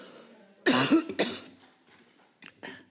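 Coughing from dust caught in someone's throat: a few harsh coughs, two loud bursts close together, then two fainter ones, with no talk.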